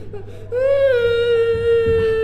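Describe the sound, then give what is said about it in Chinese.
A child cries in a long, sustained wail: a high, steady voiced tone with rich harmonics that follows a brief softer sob and holds loudly for nearly two seconds. “好孩子，别哭了”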